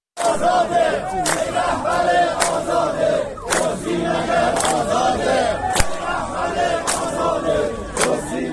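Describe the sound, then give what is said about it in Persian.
Protesting social security retirees in Arak, Iran, chant slogans against officials as a loud, rhythmic crowd of many voices. Sharp accented beats punctuate the chanting throughout. “این صدای گروهی از معترضان در عراق است.”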